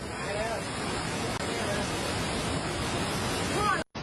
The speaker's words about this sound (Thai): คือพอยิ่งดึกน้ำก็ยิ่งไหลแรงซัดข้าวซัดของผ่านไปเสียหายต่อหน้าต่อตาเลยนะคะ